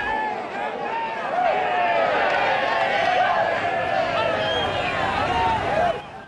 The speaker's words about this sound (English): A crowd of men cheer as an old beige GMC pickup truck arrives.